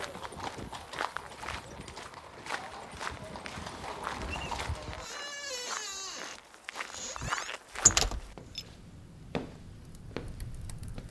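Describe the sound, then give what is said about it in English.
Hooves of a horse drawing a carriage clip-clop as it pulls away at night, the steady, irregular knocking faint and scattered across the whole stretch with a soft rustling background. “Now get in that carriage. Y'all go. Hurry up now”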